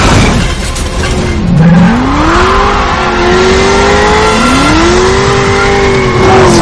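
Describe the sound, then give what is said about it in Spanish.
Car engines roar and tires squeal in a film car chase from the 2013 action thriller El Último Desafío. The engine pitch climbs twice in loud, sustained revving; no distinct impact stands out. “Da media vuelta y uno de los coches le pasa por encima y da una vuelta de campana. Se queda cruzado en la calzada y el otro coche choca contra”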